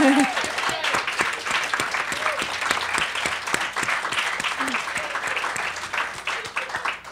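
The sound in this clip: Audience applause thanking a guest speaker: loud, dense clapping that holds steady for the whole stretch, with a few voices calling out near the start.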